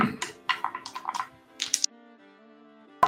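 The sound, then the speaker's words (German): Fancy Las Vegas dice rolled and clattering: a quick run of many sharp clicks and taps over about two seconds, then near silence with a faint steady tone underneath. “Weil also wenn ich schon meine fancy Las Vegas Würfel habe, wollte ich die jetzt auch gerade einsetzen.”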